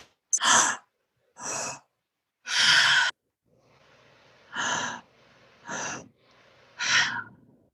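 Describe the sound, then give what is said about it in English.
Six breathy bursts separated by pauses, forceful breaths during a guided breathing exercise that includes big exhales through the mouth. “then we're going to let a nice big exhale through the mouth. So it's all mouth. And it sounds like this.”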